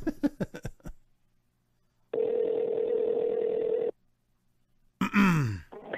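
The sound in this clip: Telephone being dialed: a quick run of short keypad beeps, then one steady tone lasting about two seconds. A voice comes in at the very end.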